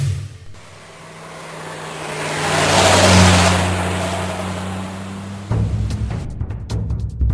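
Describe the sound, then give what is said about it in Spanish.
A race car engine revs in an auto racing setting, its roar swelling to a peak near the middle and holding loud before shifting abruptly to a rougher, lower drone. “Automovilismo. Soy un coche de carreras, el bólido más veloz, pintado el número uno en medio de mi alerón.”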